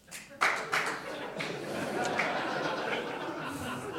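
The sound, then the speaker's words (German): Scattered clapping from a comedy show audience, a few sharp claps at first settling into a soft, steady patter of many hands, with faint crowd murmur and chuckles. “Wer kann mal klatschen, wer es gut fand bisher?”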